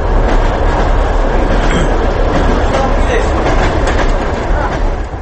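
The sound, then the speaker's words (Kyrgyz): Passenger express train bound for Moscow pulling away from a railway station, a loud steady rumble and rattle of wheels and carriages that holds throughout, then eases slightly at the end. “Москваны көздөй кетүүчү поезд ордунан козголду.”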